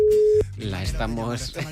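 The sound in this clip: Telephone tone heard while placing a call: one steady, held electronic beep lasting under half a second, then people talking.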